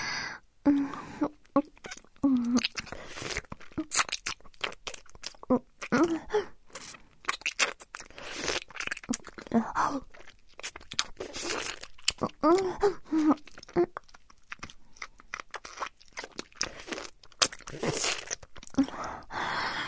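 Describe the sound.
Wet mouth sounds of saliva being swapped, a dense run of moist clicks, smacks and slurps that carries on without pause, mostly soft with frequent sharper spikes.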